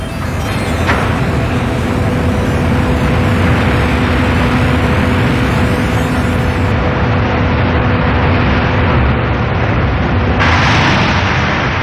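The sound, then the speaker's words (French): A mine cage descends the shaft at 12 metres per second, making a loud, steady roar that fills the whole stretch. A sharp clank of the lid locking shut comes near the start. “C'est ensuite la descente, ponctuée par le bruit sec du couvercle qui verrouille la paroi. La vitesse de la cage est de 12 mètres par seconde.”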